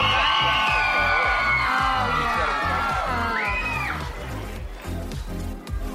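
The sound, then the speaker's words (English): Crowd cheering and shouting for a dog at an ugly dog contest, voices yelling loudly together at first, then tapering off. “Pabst may have the edge, but these cheers are only one element leading to the judges' final decision.”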